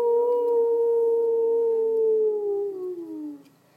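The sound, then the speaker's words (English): A person's voice imitating a wolf howl: a long, sustained tone that holds steady for about three seconds, then slides down in pitch and fades out. “Howl like a wolf.”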